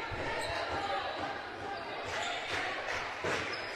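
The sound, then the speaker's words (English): A basketball is dribbled up the court by a high school team trying to break a press during a game, with bounces set under a steady wash of loud crowd noise. “The Generals slow dribbling their way up the court, trying to break the press.”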